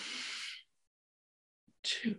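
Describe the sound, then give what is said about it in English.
A person breathes in during a slow, counted breathing exercise, a soft airy hiss lasting about half a second. Silence follows, then a voice starts to speak. “Breathe in.”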